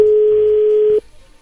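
A steady telephone dial tone sounds while a call is being placed: one continuous mid-pitched hum lasts about a second, then stops abruptly, leaving only faint low noise.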